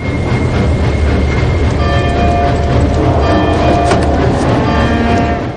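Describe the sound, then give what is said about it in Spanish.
A train approaches a station in a Western setting as the locomotive slows, a loud continuous rumble and clatter with high, thin metallic squealing tones rising over it from the middle onward. “El tren comienza a aproximarse a la estación.”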